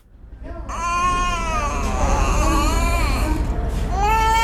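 A malnourished Afghan child cries in a hospital room: a loud, continuous, high wavering wail that swells after a short start, its pitch bending up and down, heard alone without talk.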